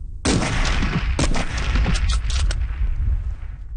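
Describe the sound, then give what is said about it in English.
Rifle shots at a shooting range: several sharp, loud cracks fired in irregular succession, each bursting out over a sustained low rumble that carries through the whole stretch. “I use two magazines, a total of 10 shots.”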